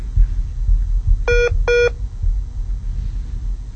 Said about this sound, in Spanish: Vamos a tratar nuevamente de conectar la llamada, porque estamos haciéndola en directo